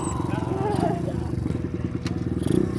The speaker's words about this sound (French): Alors c'est un 125 Honda.